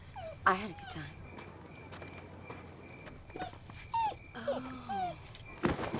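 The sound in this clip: A puppy whimpers and yips with a few high, wavering whines as a young woman greets it. Voices and other faint sounds run underneath.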